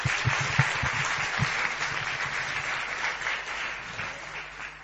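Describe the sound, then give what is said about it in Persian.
Audience applause for the participants at a live show: dense, continuous clapping that carries on throughout and eases slightly toward the end. “یه دست به افتخار خودتون بزنید.”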